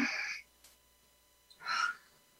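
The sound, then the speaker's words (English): Deep breaths drawn in through the nose, two airy, hissing breaths separated by about a second of near silence, with no talk over them. “let's just take in three deep breaths in through our nose and out through our mouth. So in for one,”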